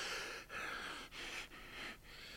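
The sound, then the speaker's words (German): Heavy panting from a man catching his breath after running, with a stitch in his side; several rough, hissing breaths come in a steady rhythm, each separated by a brief pause, with no speech. “Er keucht, als er wieder aufrecht steht. Seitenstiche. Warum lief ich auch so?”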